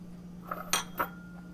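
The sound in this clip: Small ceramic dishes clink as a little shallow dish and an ice-cream-sized mini bowl are handled, three light, quiet chinks within about a second over a faint steady hum.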